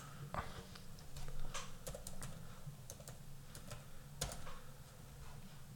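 Faint typing on a computer keyboard while playing a word-guessing game: irregular, scattered keystroke clicks over a low steady hum.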